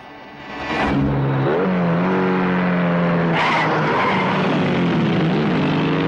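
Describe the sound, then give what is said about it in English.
Car tires screeching as the car skids round a corner at high speed: a sustained loud squeal with wavering pitch over a roaring, revving engine. “Smoke flies from Coogan's wheels as he skids round a corner”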